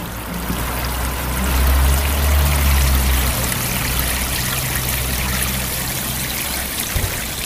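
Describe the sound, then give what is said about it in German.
Water runs from hoses and watering cans onto street trees, a steady trickling, splashing hiss that continues throughout over a low rumble. “Die Bäume werden zum Teil mit Schläuchen, zum anderen Teil mit Kannen gegossen.”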